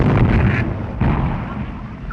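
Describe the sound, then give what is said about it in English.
Gunfire in a wartime trench battle, sounding as heavy booming bursts. One burst hits at the start and a second follows about a second later, then both fade into a rumbling tail. “As Ben begins to run the wrong direction, he is cut down by gunfire.”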